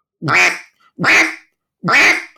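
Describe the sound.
A human voice imitates an aggressive hen duck with three loud, evenly spaced, drawn-out quacks, each nasal and raspy, separated by short silences.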